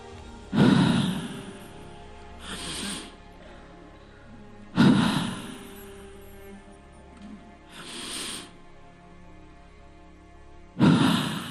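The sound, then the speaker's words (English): Slow, deep human breathing with no talk: three strong, breathy rushes of air alternate with two softer, quieter breaths, each drawn out over a couple of seconds. “Okay, deep breath.”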